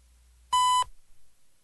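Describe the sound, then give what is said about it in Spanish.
A time signal tone from Ecuador's Naval Oceanographic Institute sounds as a single loud, steady pure beep lasting about a third of a second, alone against near silence. “del Ecuador, emitida por el Instituto Oceanográfico de la Armada. Al oír el tono serán 16 horas, 45 minutos, 0 segundos.”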